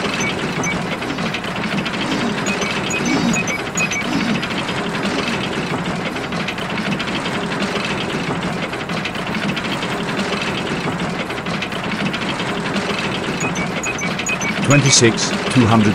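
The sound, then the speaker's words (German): A paternoster lift runs on its way down, giving off a steady low mechanical hum and whir throughout, with a brief louder clatter near the end. “Ich fahre gern Paternoster. So. Jetzt sind wir oben und jetzt fahren wir wieder nach unten.”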